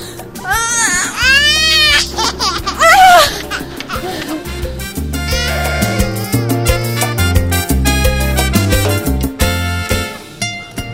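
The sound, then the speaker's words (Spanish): A newborn baby cries just after delivery in a hospital delivery room, loud wailing cries with wavering pitch at the start, followed by a busier mix of other sounds. “y su bebé sale”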